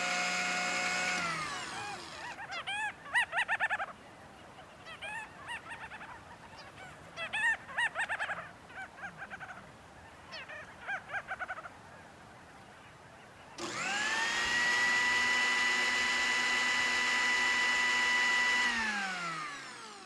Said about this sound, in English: Now, that was the sound of preparing a fish smoothie for the youngest residents of the Wildlife Preserve.